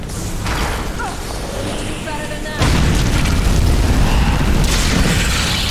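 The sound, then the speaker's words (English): Fire-spell blasts in a fantasy video game, cast against ice enemies, roar as dense noisy bursts. A rattling stretch gives way to a louder, sustained roar from about midway on. “I'm just shooting fire everywhere.”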